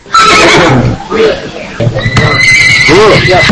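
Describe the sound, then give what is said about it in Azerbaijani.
A horse neighs at a livestock market where animals are sold, letting out a few loud whinnies while people talk close by. “Bazarda heyvanlar satılan yerdə at satanlar da var. Özü də atlar bu bazarda malqaradan pis satılmır.”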